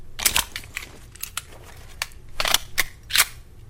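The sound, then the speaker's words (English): Sharp mechanical clicks and clacks of a Beretta 92A1 pistol being reloaded in a video game arrive in an irregular series of short, crisp bursts with brief quiet gaps between them. “Reloaded my pistol there.”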